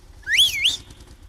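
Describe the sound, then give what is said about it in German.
A person gives a single short whistle to call out to a woman driving a Bulldog tractor. The bright, clear note rises, dips briefly and rises again, and it sounds alone. “jetzt muss ich da einmal auch der Schneidinger Bulldog-Fahrerin da drin pfeifen”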